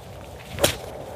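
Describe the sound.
A golf club strikes the ball on the course in a single sharp, crisp swish-crack. It is brief and stands alone over a quiet, steady background.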